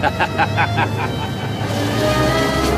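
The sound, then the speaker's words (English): A car drives away from a hotel as a low, steady engine rumble that swells toward the end, mixed with other sounds. “Freddy watches Lawrence drive away.”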